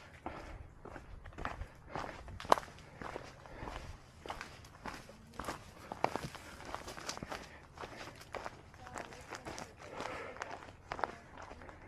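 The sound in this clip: Footsteps of a hiker climbing a steep, busy mountain trail, with many faint, steady crunching steps following one another in a regular rhythm.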